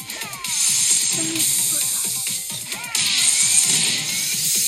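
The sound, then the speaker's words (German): A bush being smashed in a video game, crunching, rustling bursts and whip-like swishes over busy, hissing game effects, repeating at an even loudness. “Ich mache jetzt das geliebte Gebüsch kaputt.”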